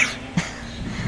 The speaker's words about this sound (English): I had a cough and changed my voice because I was coughing.